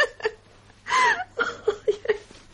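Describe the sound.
A woman crying and sobbing, with uneven bursts of gasping, hiccuping sobs and whimpers and one longer wailing sob near the middle.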